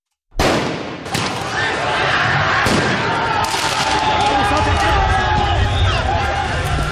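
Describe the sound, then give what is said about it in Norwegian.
Crowd noise from a football riot in France after Paris Saint-Germain's Champions League win: a loud, continuous roar of shouting with a few sharp bangs cutting through. “Dette lyden av omfattende fotballbråk i Frankrike i går kveld og i natt. Etter at de franske mestrene Paris Saint-Germain vant mesterligaen i fotball for menn, kom feiringa ut av kontroll flere steder.”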